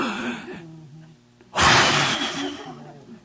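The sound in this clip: A man imitates God breathing life into man with one loud, forceful breath lasting over a second, after a brief stretch of his speaking voice.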